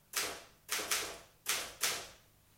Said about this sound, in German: Bisschen tippen. Nur eine Typenprobe.